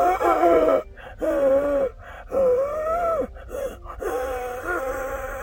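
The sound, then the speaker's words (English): Strained vocal wheezes, made by tightening the larynx and inhaling, come as several drawn-out, buzzing breaths with steady pitch and short gaps between them. “And that's how you get the wheeze.”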